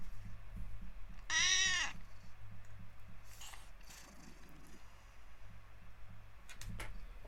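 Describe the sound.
A cat gives one clear, high meow over a steady, rhythmic mechanical ticking and low hum that continues throughout.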